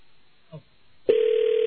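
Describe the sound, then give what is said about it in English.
Automatic telephone ringback tone sounding after the called party hangs up, so the line rings back through: a loud, steady single-pitch electronic tone switches on abruptly after a quiet stretch and holds unbroken to the end. “That's the automatic ring back. He hung up his phone, so it's ringing through to Alan.”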